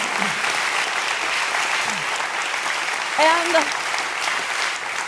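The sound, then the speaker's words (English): Loud, sustained audience applause with an even, dense texture continues from start to finish. A single voice briefly whoops over it midway, with a few quieter vocal calls earlier. “I am certain that a lot of that applause was for my husband of 35 years.”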